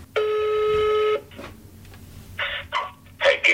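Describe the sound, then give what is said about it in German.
Telephone tones as a call is placed: a steady, buzzy tone holds for about a second, then after a pause several short dialing beeps follow in quick, uneven succession. “Also Anruf bei Heikki Ojala, dem Sicherheitsexperten.”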